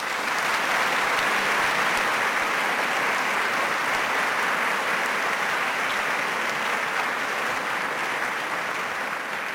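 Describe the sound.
An audience gives a speaker at a formal event a long, sustained round of applause, dense and even, easing off a little at the very end.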